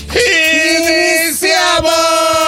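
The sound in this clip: A loud, sustained battle cry is shouted to open a morning show. It is one long, strongly voiced yell with a brief dip partway before it resumes at full force.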